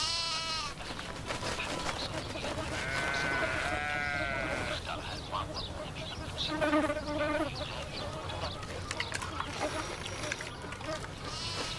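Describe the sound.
Sheep bleating in a sheep pen: several wavering, nasal bleats rise over a steady background of farmyard noise, with louder calls clustered midway through.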